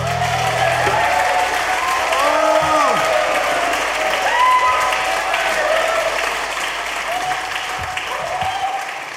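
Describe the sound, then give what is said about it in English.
An audience applauds at the end of a live song with a dense, steady clatter of clapping. Faint sliding musical notes ring over it early on. “Very kind of them to clap.”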